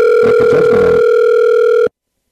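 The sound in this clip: An electronic telephone ring tone sounds as one steady, loud, buzzing note with rich overtones. It holds for just under two seconds, with faint low rumbles beneath it early on, then cuts off abruptly into silence.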